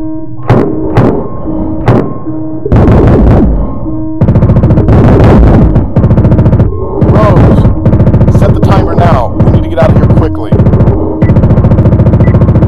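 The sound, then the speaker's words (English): Gunfire in a scene of people under attack: many loud, sharp gunshot bursts in an irregular series, some in rapid clusters, with shouting voices between them. “They're shooting at us!”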